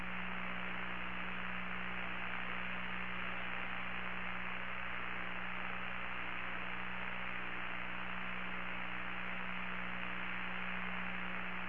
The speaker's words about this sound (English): Now, what you're hearing is a communications checkout.